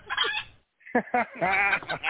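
Chicken clucking, harsh and squawky, in a short burst, then a brief silence and a quick run of several loud clucks.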